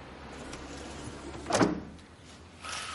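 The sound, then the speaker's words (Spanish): A neighbour shuts her windows in fear. A short, scraping slide swells to a peak midway and dies away, followed by a fainter sustained noise near the end, against a quiet background. “La vecina cierra también sus ventanas atemorizada.”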